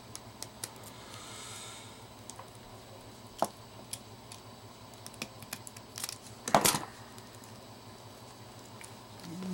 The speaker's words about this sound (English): So, what I do, I got this the knife again and I just start to cut around the